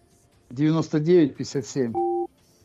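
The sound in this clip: A single steady two-pitch telephone keypad tone sounds briefly as someone dials a number, right after a voice speaks.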